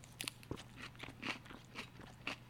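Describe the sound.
Crisp crunching of salad being chewed: a faint, steady series of bites and crunches.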